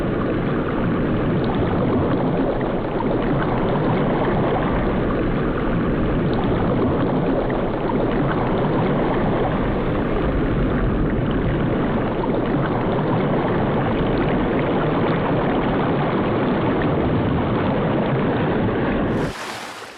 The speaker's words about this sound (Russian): По воде плывет корабль.